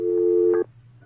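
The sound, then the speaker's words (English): A telephone tone sounds on a noisy line while a call is being redialed: one steady, mid-pitched beep holds for about half a second, then cuts off, leaving a faint low hum. “I'm going to dial you right back. This is a noisy line. Hang up. I'll call you right back.”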